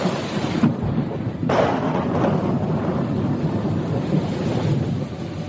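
Rolling thunder on a dark night, a loud, continuous deep rumble blended with a rain-like hiss, swelling slightly partway through.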